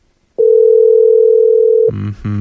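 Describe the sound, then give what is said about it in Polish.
A telephone dial tone sounds while a call is placed: one loud, steady, unbroken electronic hum lasting about a second and a half, then cut off by a brief voice. “Umówiliśmy się, więc powinien odebrać. Halo, halo.”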